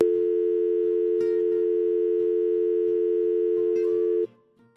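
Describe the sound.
A steady telephone tone after hanging up and redialing: one continuous mid-pitched electronic hum that holds level for about four seconds, then cuts off abruptly into near silence.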